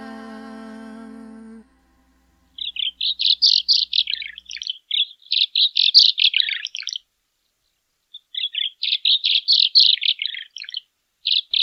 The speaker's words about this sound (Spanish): Pilmaiken, ave pequeña, alcanza más de 10 centímetros de longitud.